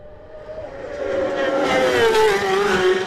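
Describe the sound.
Racing motorcycle speeding past on the Glen Crutchery Road course during Isle of Man TT qualifying, its high engine whine growing louder and then dropping in pitch as it passes.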